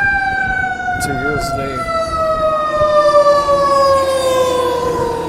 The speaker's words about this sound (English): Those fire trucks are hauling some ass towards Chinatown, downtown